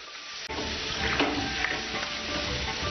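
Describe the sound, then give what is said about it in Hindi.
Mutton fries and browns in a pan with a dense, steady sizzle and crackle that carries on evenly throughout, with one brief sharp click early on. “इसको अच्छे से भून लें, अच्छे से brown कर लेंगे तो मटन की स्मेल भी निकल जाएगी और पकने में जल्दी आसानी होगी।”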